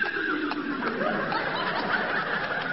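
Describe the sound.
A young saddled mare that has not yet been broken in, led out into the fresh air, gives a breathy, rough whinny and snorting sounds that run steadily through the whole stretch, with no talk over it.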